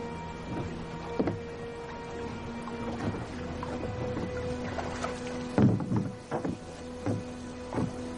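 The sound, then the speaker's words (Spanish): A motorboat's mooring being untied while fishing line is reeled in. A few soft, irregular knocks, clunks and creaks sit over a low, steady hum at a quiet level. “Luego comienza a quitar el amarre de la lancha mientras Agustín recoge el hilo de la caña de pescar.”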